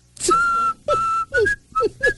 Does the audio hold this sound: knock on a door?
no